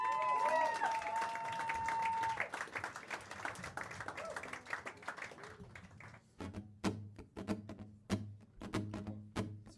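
An audience applauds a performer at a mini concert. Dense, loud clapping gradually thins into a few scattered, separate claps over a low steady hum.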